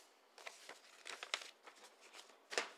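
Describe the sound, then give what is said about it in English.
Paper survey being folded into an envelope gives a series of soft, faint crinkling and rustling bursts, irregular and scattered, with a sharper crackle near the end. “Going in the envelope right now.”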